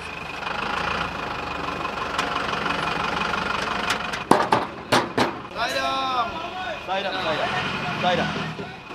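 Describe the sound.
Engine rumble from lorries driving ahead in a procession accompanied by singing and a small bowl played as a tabla, steady and continuous, broken by a few sharp knocks, with voices joining toward the end.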